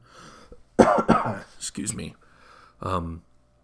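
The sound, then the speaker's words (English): Harsh coughing and throat clearing from a speaker whose voice has gone dry after running out of water: a few loud, sharp bursts in quick succession, then a short voiced clearing of the throat. “I'm already out of water here, so my voice, I might need to cough again.”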